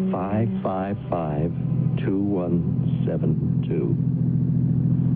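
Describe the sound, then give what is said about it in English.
Low steady rumble of a dark gray car running while being driven, an even engine drone beneath people talking throughout. “Car runs nicely, doesn't it? Yeah. Handles easy, don't you think?”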